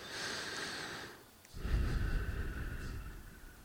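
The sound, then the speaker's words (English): Slow, deep breathing with a long, fine exhale: a steady airy rush of breath, alone and without speech, that fades midway and then swells again into a fuller, drawn-out breath. “Especially exhales, watch the exhales closely, long and fine.”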